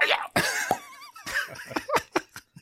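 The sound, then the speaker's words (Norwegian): A man imitates a capercaillie's call with his voice: a quick run of sharp clicks and pops woven with throaty, gurgling vocal tones, fairly loud and uneven in rhythm. “som prøvde å høres ut som en tiur.”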